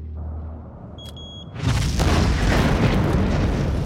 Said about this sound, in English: The explosives they set still rest on the stone sill. One of them raises up a detonator.